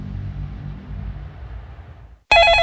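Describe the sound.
A telephone rings abruptly after a low, quiet murmur, a loud bright tone that bursts in and runs to the end without talk.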